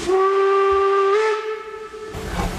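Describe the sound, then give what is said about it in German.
A steam locomotive whistle on a park railway in Chemnitz sounds one long, loud, steady blast with rich harmonics, followed by a brief burst of hissing steam. “Um 10 startet die erste Dampflok heute bei der Chemnitzer Parkeisenbahn.”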